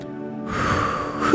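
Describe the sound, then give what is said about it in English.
A deep breath is drawn by people at a Sunday service: a single breathy rush that swells slightly in strength over about a second. “Deep breath. Inhale, exhale.”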